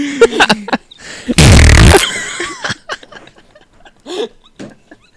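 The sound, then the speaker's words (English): A soundboard button fires a loud fart sound effect, a blaring, buzzy burst lasting about half a second. Voices talk and laugh before and after it. “The fart button. Oh my God. That was so loud.”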